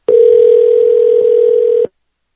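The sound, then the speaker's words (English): A single steady telephone ring tone from a call placed to another line. It sounds loud and alone for nearly two seconds, then stops. “Okay, here I go. Your other line should be ringing any time.”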